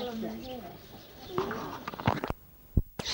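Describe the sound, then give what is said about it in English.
Parrots, macaws and cockatoos calling in an aviary of red-bellied macaws, Amazon parrots and cockatoos: a few warbling, squawking calls, followed by several sharp clicks and knocks. “There are several kinds here. Red-bellied macaw, Amazon parrots, cockatoos.”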